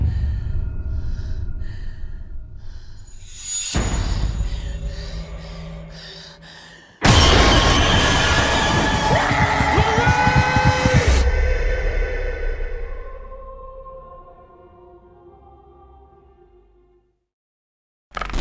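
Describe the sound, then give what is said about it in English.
Trailer audio for the 2016 horror film The Conjuring 2: eerie low drones and breathy sounds, then a sudden loud boom launching a dense, harsh wall of noise that cuts off into sparse fading tones and silence. “And that was the trailer for 2016's The Conjuring 2, the third installment of The Conjuring Universe.”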